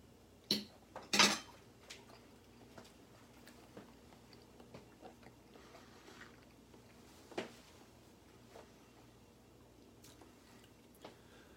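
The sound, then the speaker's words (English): Cutlery clinks sharply against a dish a couple of times as someone takes a bite of food, followed by long stretches of faint, quiet eating sounds. “All right, I'm going to take one more bite.”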